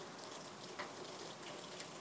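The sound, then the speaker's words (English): Light rain falling in southeast Queensland after a heavy downpour eases: a steady, soft, even hiss with a few faint scattered drop ticks, no voices. “The rain has eased off a bit here in southeast Queensland.”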